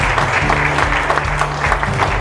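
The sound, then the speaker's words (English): A live audience applauds, giving dense, steady clapping at a strong level, with a low hum of crowd noise underneath. “So can I please have a round of applause for our fantastic podcast crew.”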